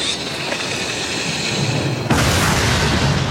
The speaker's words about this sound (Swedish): ljudet är från den Oscars-nominerade filmen Beaufort från 2007. Det här är en krigsfilm. Israeliska soldater under press från Hezbollah spränger sina egna bunkrar vid just korsfararfästningen Beaufort,